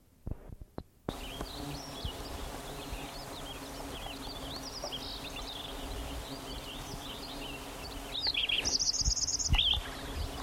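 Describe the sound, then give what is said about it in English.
Sparrow song: faint, thin chirps repeat over a low background hum. A louder, rapid run of high notes comes near the end. “I think it's sparrow number 2.”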